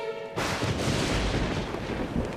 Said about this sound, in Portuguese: Já agora vai começar uma trovoada dentro de 3, 2, 1...